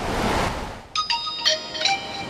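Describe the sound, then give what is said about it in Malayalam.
A WhatsApp message notification on a phone at the beach: a few bright, high chiming tones in quick succession over steady, broad surf-like noise. “എന്താ വാട്സാപ്പിൽ മെസ്സേജോ? നോക്കട്ടെ.”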